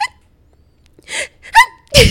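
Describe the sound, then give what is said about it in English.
A voice imitates a girl's sneeze: a couple of breathy, gasping build-ups lead into one short, sharp burst at the end, with no talk around it. “There's this girl that I knew in high school and she would literally sneeze like,”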